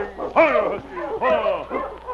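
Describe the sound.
A sled team's lead dog on a frozen river gives a short run of yelping barks and whining yips, several high, bending calls in quick succession, loud and close together.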